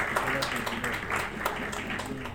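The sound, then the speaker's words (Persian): Audience applause at a technology awards ceremony, moderate clapping with individual claps audible over a steady background. “تشویق بفرمایید.”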